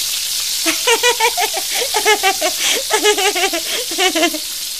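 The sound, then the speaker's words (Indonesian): Tempeh frying in oil in a frying pan: a loud, continuous hissing sizzle, with a series of short, rhythmic voiced bursts sounding over it. “Keduanya menutup telinga sambil menjauh dari penggorengan. Mereka takut terkena minyak.”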